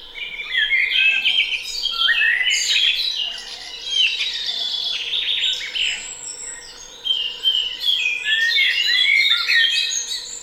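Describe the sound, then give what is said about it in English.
A dawn chorus of many birds singing at once, with overlapping high chirps, whistles and trills that keep up a busy, continuous stream of song with brief dips. No voices. “Now, it's actually easing off in recent weeks, but say back late April into May, June, you can really hear it. It's the dawn chorus, isn't it, of course?”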